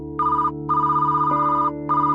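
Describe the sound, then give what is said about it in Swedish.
A telephone rings in repeated electronic bursts, three in all with the last running to the end, over a steady, low musical drone. “efter att Nicole Kidman fått se resultatet ringer telefonen”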